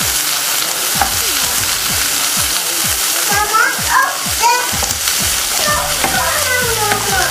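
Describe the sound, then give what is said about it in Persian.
Food sizzles and fries in a pan, a bright, continuous crackle with scattered pops, while people, including a child, talk over it. “هنوز نپخته، بذار خوب سرخ بشه بپزه، یه 10 دقیقه دیگه میتونی بخوری عزیزکم.”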